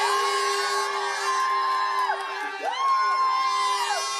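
Children, fellow athletes and friends cheering to welcome the European javelin champion on her arrival in Thessaloniki: sustained loud shouts and whoops, with rising and falling cries carrying throughout.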